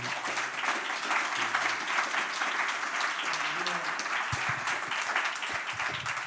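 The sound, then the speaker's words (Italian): Audience applause breaks out at an event, a dense, steady wash of many hands clapping that holds at an even loudness for the whole stretch with no clear pauses. “Quindi un mega applauso a Elio.”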